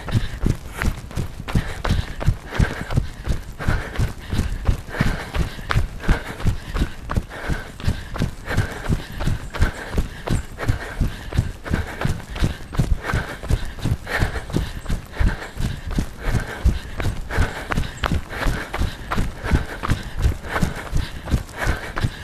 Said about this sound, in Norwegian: Og vi løper fra nå av.